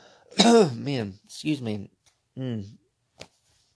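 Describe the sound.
Throat clearing and coughing caused by a tortilla chip crumb stuck in the throat: three rough, voiced clearing bursts with short pauses between them, then a brief sharp cough at the end.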